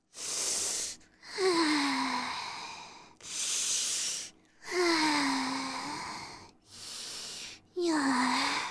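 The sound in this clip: Deep, frightened breathing from a scared person trying to calm down: three slow cycles, each a hissing breath followed by a longer, faintly voiced breath that slides downward in pitch.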